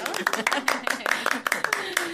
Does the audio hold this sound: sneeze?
no